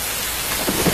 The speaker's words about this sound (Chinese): 这是风声，这是雨声，